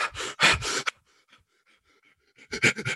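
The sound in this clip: A voice imitates panicked breathing during a panic attack: a few rapid, loud, harsh panting breaths, then a quiet pause, then another quick burst of fast, gasping breaths.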